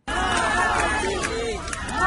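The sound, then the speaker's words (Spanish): A large crowd of mourners murmurs at Alexei Navalny's funeral in Moscow: a dense, steady babble of many voices, loud and unbroken for about two seconds. “Miles de personas acudieron al funeral de Alexei Navalny en Moscú, nos informa Jaime Moreno.”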